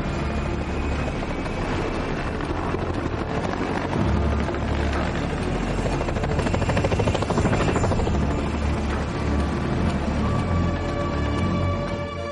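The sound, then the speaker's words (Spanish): A helicopter taking off, heard as a loud, steady roar of engine and rotor noise. The dense, unbroken sound holds at an even level from start to finish. “Entonces enciendo el motor, ¿no? El helicóptero despega.”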